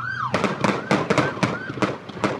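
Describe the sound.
Gunshots fired by police at a man in a street, a rapid, irregular series of sharp, loud cracks.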